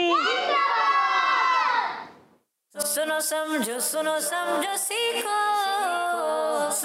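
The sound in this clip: Children shouting a slogan together, first one long loud shouted phrase that tails off into a short pause, then more energetic shouting from many young voices.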